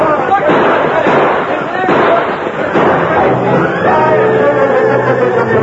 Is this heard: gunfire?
yes